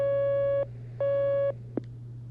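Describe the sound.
Telephone line tones as a caller is connected to a call-in line: two long, steady, matching beeps with a short gap between them, then a brief click, over a constant low hum.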